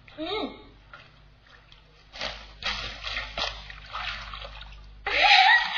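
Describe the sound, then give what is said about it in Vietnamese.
Water splashing as a girl washes her hair in clean water: softer sloshing and trickling give way to a loud, bright splash near the end, with a voice heard briefly. “Coi dùm vỏ cá cho chị á, chị ra xa một chút, có nước sạch mới gội đầu được nhé.”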